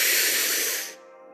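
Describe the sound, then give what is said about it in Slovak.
A deep breath during a guided relaxation exercise: a soft, breathy hiss that holds for about a second and then trails away into quiet. “ešte raz hlboká nádych”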